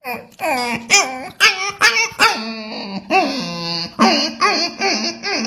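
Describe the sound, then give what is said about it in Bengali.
A human voice imitates a puppy's whimpering with a rapid series of short, high, whiny yelps. Each has a wavering pitch, and the whimpers are loud and closely spaced with no ordinary talk between them. “প্রথম যখন বাচ্চা কুকুর তখন তার শব্দটা কিরকম হয়?”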